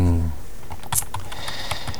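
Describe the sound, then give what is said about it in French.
Keys click on a computer keyboard as text is typed into a file. A few light, crisp taps are spread across the moment, with a short voiced sound at the very start. “je viens d'ailleurs de le taper dans le fichier”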